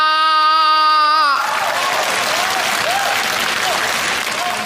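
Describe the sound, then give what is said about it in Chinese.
Audience applause swells into a dense, steady roar of clapping right after a brief sustained harmonic tone, continuing loud and unbroken to the end. “别鼓掌，这都多难为情啊”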